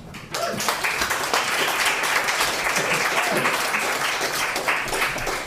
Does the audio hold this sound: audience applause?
yes